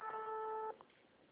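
An unanswered telephone call gives one faint, steady buzzing ringback tone on a narrow phone line, which cuts off abruptly after under a second.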